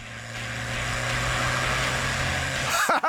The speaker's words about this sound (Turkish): Gaza biraz daha basacağım. Bakalım ne olacak. Gidiyor işte. Şunun sesine bakın.